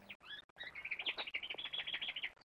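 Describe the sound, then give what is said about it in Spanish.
A small caged bird sings a quick, high-pitched run of chirps and twittering trills. The repeated notes come in a rapid, steady rhythm, soft and alone. “Mira contento hacia la jaula donde un pajarito canta.”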